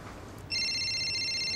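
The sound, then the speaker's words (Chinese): A telephone starts ringing partway through with a bright, steady electronic tone that holds to the end, replacing a faint near-silent background. “哎，秋红，电话，电话。”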